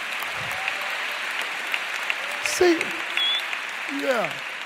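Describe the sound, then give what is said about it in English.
An audience applauds continuously as people are welcomed onto a stage, with dense, steady clapping throughout and a few brief shouts over it. “Would you welcome them as they come? Watch this. Oh, come on, give them a hand.”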